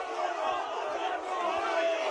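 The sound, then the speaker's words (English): A crowd shouting at an Australian football match at Hurstbridge, where spectators call out to the umpire: a continuous, dense roar of many voices at a steady level. “As the Hurstbridge crowd get right involved. In fact, they were trying to point out to the umpire that Jesse King had a bit of blood trickling from his knee”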